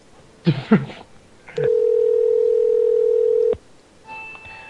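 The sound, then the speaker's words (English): A phone rings with a single steady electronic tone held for about two seconds, loud and even, with brief short sounds before it and fainter higher tones after. “Oh, that's me. That's my phone. You got a phone call, sir. That's my phone.”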